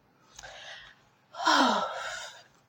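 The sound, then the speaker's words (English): Hard breathing with a sharp gasp: a soft breath is followed by a louder, longer, rasping intake of air that fades toward the end. “Why did you have to breathe so hard?”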